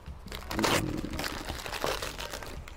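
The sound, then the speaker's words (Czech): Wrapper crinkles and crackles as a Tatuaje cigar is unwrapped, coming in a few quiet bursts of crisp, crumpling rustle with no voices over it. “Zase doutník, doutník rozbalíme, ukážeme.”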